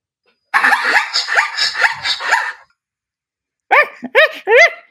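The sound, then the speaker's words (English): A dog gives a few high, sharp, yelping barks in quick succession, loud and clear. Before them comes a longer stretch of rapid, chattering noise. “I want you to identify this animal. A dog. That was a dog.”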